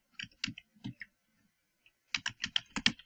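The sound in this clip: Typing on a computer keyboard while entering text into a graphics program: a quick, faint run of clicking keystrokes, a pause of about a second, then a denser burst of key taps.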